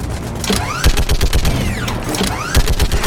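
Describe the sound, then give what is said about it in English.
Loud, rapid bursts of heavy automatic fire from a mounted gun in a video game, dense sharp reports chattering almost without pause across the whole stretch. “We've got hostiles on the perimeter! Ah, yes. Ah! Shepherd gets on the gun.”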